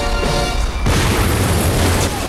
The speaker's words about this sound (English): A huge explosion rips through a door.